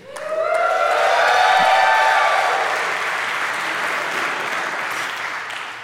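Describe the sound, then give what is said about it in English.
An audience applauds with dense, loud clapping that swells quickly, holds steady, then slowly tapers over about six seconds. “I wanted to wait until your applause was fully gone.”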